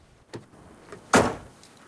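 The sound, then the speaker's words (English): A truck door slams shut in one solid, loud thump with a brief rattling tail, preceded by a faint click, with no talk. “he closes the car door.”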